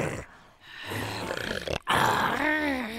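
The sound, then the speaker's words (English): A man's voice imitates an animal growl, using the throat to make rough, rasping bursts that give way to a sustained, strained, gravelly growl, loud throughout. “One way to break it down is inhales and exhales. So okay. You know, with growls and things, it's a ha, ha, ha, ha.”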